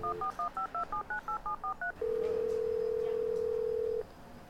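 Telephone dialing tones: a quick run of short touch-tone beeps at shifting pitches, then a single long, steady tone that holds for about two seconds before cutting off. No one speaks.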